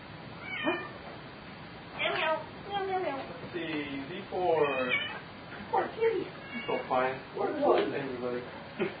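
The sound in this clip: A person's voice imitates a cat, producing a long string of drawn-out, pitch-bending meows one after another, fairly loud and clear with no other talk around them.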